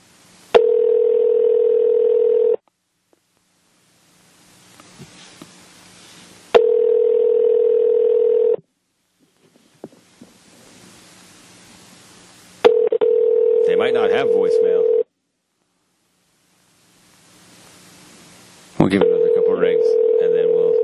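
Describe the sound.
Telephone call being dialed and ringing: a steady ringback tone sounds in long, evenly spaced bursts separated by quieter gaps, and the later bursts carry extra warbling, dial-like tones.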